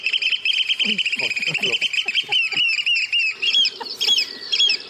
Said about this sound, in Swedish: Nu spelar jag strandskatan. Jaha, den har man ju hört. Ja. Det här är spellätet.